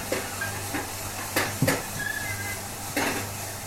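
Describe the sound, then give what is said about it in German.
A coffee roasting machine runs at full speed in a café as the beans brown: a steady hiss and whir broken by a few brief clattering rattles. “Die Maschine läuft auf Hochtouren und die Kaffeebohnen werden braun und brüner.”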